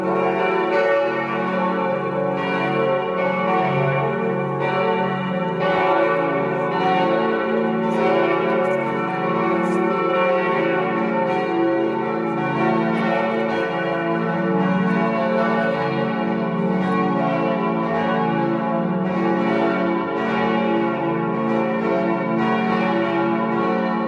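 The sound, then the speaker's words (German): Bells of a Catholic church in Saxony ring in honour of a couple's 65th wedding anniversary, a full, continuous peal of overlapping strokes that stays loud and even throughout, with no voices. “und so klangen die Glocken der katholischen Kirche Maria Himmelfahrt, die zu Ehren des Jubelpaars geläutet haben.”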